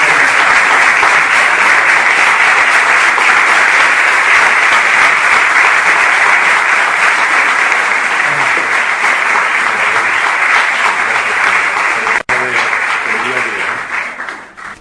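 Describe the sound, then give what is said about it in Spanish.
Sustained audience applause at a local award ceremony honouring a leather goods firm, loud dense clapping holding steady for about twelve seconds before a brief break and a fading tail. “Un fuerte aplauso para ello.”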